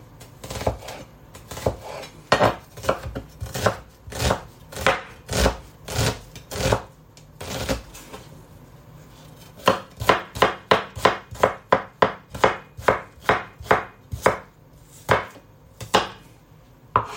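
A knife chops food in many sharp, rhythmic strikes, looser at first, then a short pause and a faster, steady run of cuts.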